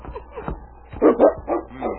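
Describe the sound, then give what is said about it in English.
Husky sled dogs barking on a trail: soft whines and grumbles, then several sharp, loud barks and yips, moderately loud, with no talking. “All right, up you huskies. Come on, boys. Up, I say. Push, push. The dog team dragged their traces wearily.”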